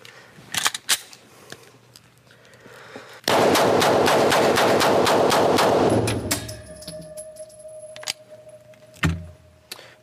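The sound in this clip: A rapid burst of gunfire: many shots in a fast, even string that lasts a little under three seconds, loud and alone, with a few faint clicks before and a dull thump afterward.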